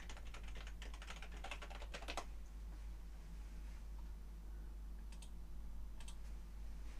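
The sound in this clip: Faint typing on a computer keyboard: a quick run of soft key clicks, then a long pause, then a few more scattered taps over a steady low hum.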